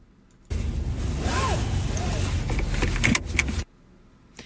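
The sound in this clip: A car seat belt pulled across and buckled: about three seconds of continuous rustling as the webbing slides out, ending in sharp clicks, then quiet.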